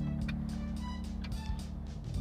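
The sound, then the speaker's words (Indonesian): A car drives along, heard from inside the cabin: a steady low engine and road rumble hums throughout, with faint lighter noises flickering above it. “Bahkan ini saya sambil nyetir tapi saya bikin siaran untuk Anda”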